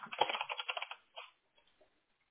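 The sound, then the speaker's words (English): Typing a name into a computer keyboard on a login page: a quick run of crisp key clicks for about a second, then a few scattered taps after a short pause. “Make sure you type your name exactly as it reads there and that you've clicked in the two little boxes.”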